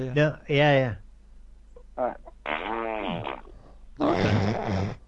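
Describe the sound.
Loud, buzzy fart noises come in a few bursts of varying length, separated by short gaps, with the later bursts longer and fuller.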